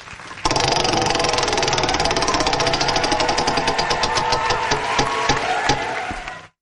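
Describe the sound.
A prize wheel being spun sets off a dense rattle of rapid ticking that runs on steadily, then thins into slower, more distinct clicks before it stops.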